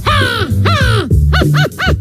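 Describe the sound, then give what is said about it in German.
A person imitates a crow cawing: two drawn-out, harsh, harmonic caws followed by three shorter, clipped caws. The calls are loud and come in quick succession. “Die Fischkrähe. Mein Favorit absolut ist die Krähe.”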